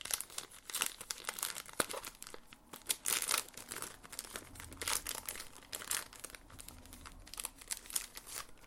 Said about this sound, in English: Oh, there's a little pack of cards, it looks like, in here. So I'm going to open this up.